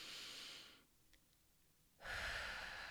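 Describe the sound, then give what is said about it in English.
A deep breath: a long, airy inhale, about a second of near silence, then a fuller, louder exhale, with no talk. “take a deep breath. Let's do this together.”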